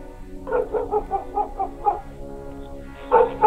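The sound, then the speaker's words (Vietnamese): A black dog jumps up and barks angrily in a rapid run of short, harsh, mid-pitched barks, then pauses briefly before a final louder burst of barking. “Con chó mực đang nằm lim dim bên cạnh quán lập tức nhảy chồm về phía Giang mà hậm hực sủa lên mấy tiếng.”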